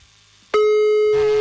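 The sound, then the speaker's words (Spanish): A telephone line tone sounds as a call is redialed. A steady, loud single-pitched beep starts abruptly after a faint low murmur and holds unbroken to the end. “Le voy a marcar otra vez, ¿sale? De volada. Ahí está marcando ya.”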